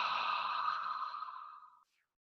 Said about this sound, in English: And then bring it up in your breath and blow it out of your mouth.